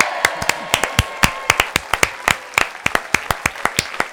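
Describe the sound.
A studio audience applauds, with many loud, sharp hand claps in a quick, steady stream that holds at an even level throughout.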